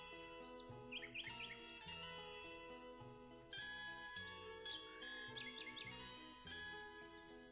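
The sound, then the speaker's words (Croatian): A nightingale sings a faint, varied song of quick chirps, rapid trilled note runs and clear high whistles, the phrases repeating in bursts over a steady low background. “Slavuj pjeva danju i noću.”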